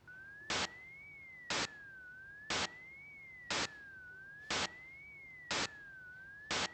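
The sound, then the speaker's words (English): A pure tone glides slowly up and down while seven short, loud bursts of hissing noise arrive at a regular beat, each filling a gap in the tone so the glide seems to continue through them. “So now I'm going to play exactly the same sound, but in those gaps in the sound, I'm going to present bursts of noise.”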